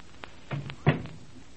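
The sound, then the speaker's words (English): A library door being closed makes a soft knock, then a firmer, dull thud as it shuts, both quiet against a faint hiss. “Now let me close this door.”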